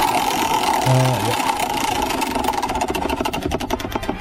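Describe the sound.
A prize wheel being spun: a rapid run of ticking clicks that gradually slows and spreads out toward the end, under people talking.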